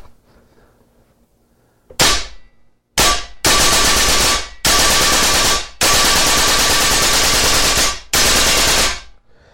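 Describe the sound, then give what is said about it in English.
An SMG-22 gun fires one single shot, then switches to full auto and fires several long bursts of rapid shots, each burst loud and sharp-edged, separated by brief gaps. “So this is the go ahead and go single shot, and then take it full auto”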